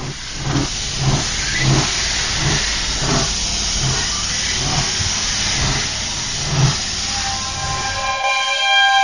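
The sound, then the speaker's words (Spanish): A steam train pulls into platform 4 of a station, with rhythmic chuffs and continuous hissing steam, ending in a sustained high squeal. “Atención, Tren procedente de misterios y leyendas efectuará su entrada en la vía 4, final de trayecto.”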